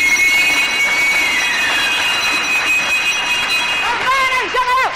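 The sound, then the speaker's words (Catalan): Bingo ball drum spinning for a number draw, a loud, steady rushing whoosh with faint rattling and thin tonal whines running through it. “Que atenció, roda la bola.”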